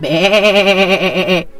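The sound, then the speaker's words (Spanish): A voice imitates a goat bleating, one loud, sustained nasal "baa" with a trembling, quavering pitch, heard on its own and cutting off abruptly. “Y la cabra, miren lo que contestó: ¡Bé!”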